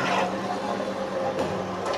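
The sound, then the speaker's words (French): A sticker cutting machine making fast, straight cuts gives off a steady mechanical whir, broken by a couple of sharper clicks. “C'est une machine spécialement étudiée pour faire que de la coupe. Vous voyez, c'est assez rapide. Ce sont des, coupes franches.”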